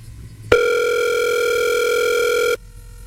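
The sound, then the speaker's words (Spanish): A single steady telephone tone sounds while a call is being placed. It holds loud and unbroken for about two seconds, then stops, with no voices. “Ya estamos llamando.”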